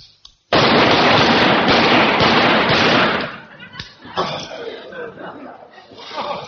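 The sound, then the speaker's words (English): Rapid rifle fire on an army firing range: a sudden, loud burst of quick, overlapping shots lasts about three seconds and then stops abruptly. Quieter voices and sounds like chuckling follow. “Five rounds. Rapid fire.”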